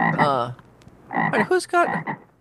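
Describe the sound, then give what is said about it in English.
Frog croaking in loud, raspy, throaty bursts: one long croak, a short pause, then a few quicker croaks in a row, alone with no talk. “who's the cricket person? It's a frog. Come on, it's all about frogs. Well, who did the frog? Did you do the frog?”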